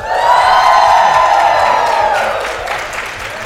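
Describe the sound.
Applause and cheering from a live audience at a forum event form a loud, dense wash of clapping with whoops, sustained and easing slightly toward the end.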